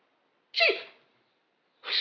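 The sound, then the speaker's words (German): A sneeze set off by slipping a ring onto a finger: one sharp, explosive burst with a breathy tail that fades out, then the start of a second burst at the very end. “Wenn man ihn auf den Finger steckt, dann niest man.”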